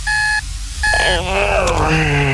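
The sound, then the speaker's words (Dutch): An alarm clock rings in two short bursts of steady electronic beeping, then gives way to a busier stretch of sliding tones. “De wekker gaat. En gaat.”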